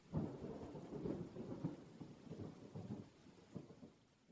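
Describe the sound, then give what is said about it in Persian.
Low, rolling thunder over rainfall, a soft continuous rumble with gentle swells, very quiet throughout. “گفت باران”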